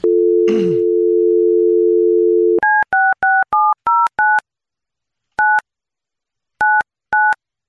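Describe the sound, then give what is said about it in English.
Telephone dial tone holds steady, then a number is dialed with nine keypad tone beeps: six quick ones in a run, then three more spaced out. A brief click sounds near the start of the dial tone. “Let me dial her up.”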